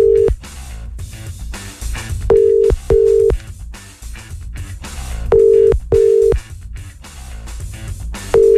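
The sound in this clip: An international phone call to Stockholm, Sweden, rings out: short, steady ringing tones, mostly in pairs, repeat about every three seconds over constant background noise.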